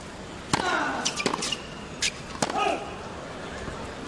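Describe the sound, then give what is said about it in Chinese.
Tennis serves by Nadal in the third set land as a few sharp, crisp racket-ball impacts, separated by brief gaps, with faint speech in between. “双方第三盘的比赛，由纳达尔率先发球。”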